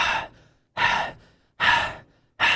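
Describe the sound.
A voice imitates the heavy panting of someone gasping for air after holding their head underwater in a big barrel of water. Four loud, breathy gasps come in a steady rhythm, each fading quickly, with nothing else heard.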